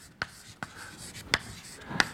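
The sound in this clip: Chalk taps on a board while an equation is written during a French physics lecture on the thermodynamics and entropy of mixtures. Four sharp, quiet ticks are spaced irregularly over soft background hiss.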